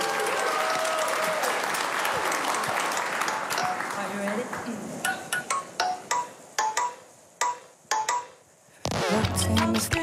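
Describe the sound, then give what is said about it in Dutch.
Audience applause greets a singer about to perform a new single live on a radio show. Dense clapping with a voice over it thins to scattered separate claps, and music begins at the end. “Geef ze een groot applaus.”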